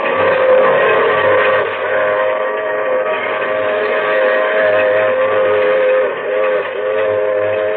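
Train with a boxcar rolling on rails: a loud, continuous low roar with steady droning tones, running unbroken throughout without distinct separate wheel beats.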